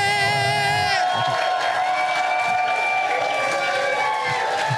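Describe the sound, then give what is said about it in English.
A live comedy show audience cheers and whoops as a comedian is introduced. Sustained, loud crowd noise mixes high whoops and shouting voices throughout. “Make some noise for David Gborie.”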